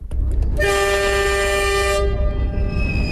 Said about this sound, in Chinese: 伴随着一声汽笛长鸣，首列兰州至伊斯兰堡南亚公铁联运国际货运班列满载着450吨货品，徐徐驶离甘肃兰州国际陆港